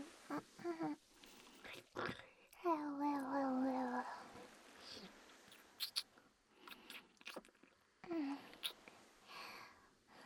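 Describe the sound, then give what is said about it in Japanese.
Close, wet mouth sounds of biting and licking, with many small clicks and smacks and a few soft voiced hums between them. “噛んで舌でクリクリしてあげる。”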